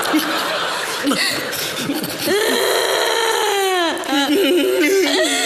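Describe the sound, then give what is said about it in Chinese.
A woman cries and sobs loudly in wavering, high-pitched wails broken by whimpers and catching breaths, with the pitch sliding up and down through long drawn-out cries. “别哭了啊！别哭了，我不回来了吗？”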